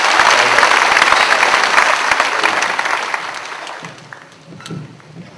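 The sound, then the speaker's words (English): A church audience applauds an elder as he is welcomed to speak in a family finances series. Dense, steady clapping holds for about four seconds, then thins out and fades into scattered claps. “Let's put our hands together as we welcome.”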